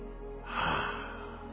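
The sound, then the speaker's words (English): One slow, deep breath, drawn in softly through the nose or mouth. It swells into a breathy rush, peaks briefly, then eases off over a low, steady background hum. “Take a good deep breath.”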